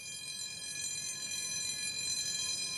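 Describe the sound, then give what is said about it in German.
A repaired canal lock gate moves again, giving off a steady mechanical whine with several sustained high tones over a low, rumbling machine noise. The sound stays continuous and even throughout. “Nach weiteren Arbeiten fährt das Schleusentor wieder.”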